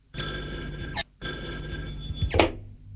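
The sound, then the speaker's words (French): A telephone bell rings in two long, loud trilling bursts separated by a short pause. The second ring ends with a dull thunk. “Nicolas reçoit un appel téléphonique.”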